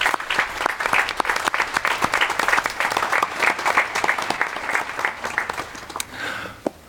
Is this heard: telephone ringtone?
no